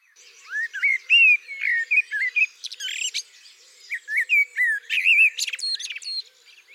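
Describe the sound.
Blackbird singing its song motifs: many short fluting, warbled phrases with quick twittering trills, separated by brief pauses. The clear, melodic song is heard alone throughout.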